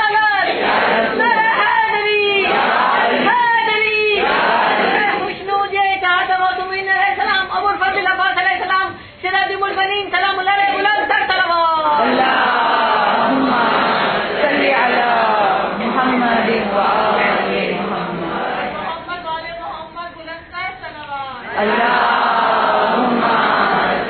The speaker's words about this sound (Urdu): نعرہ تکبیر